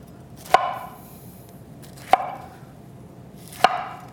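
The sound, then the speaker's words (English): A knife cuts food into thick, even slices: three crisp, sharp cuts land at a steady, unhurried pace, each standing alone over a faint background hiss. “I'm going to cut this into nice thick slices, just four of them. Four slices, even sizes.”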